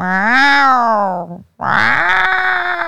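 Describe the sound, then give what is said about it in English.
A person imitates a cat's meow with two long, loud, voiced cries. The first holds steady and then drops at its end, and the second swells and holds. No other sounds are heard. “From me making that cat noise, they thought that it was him.”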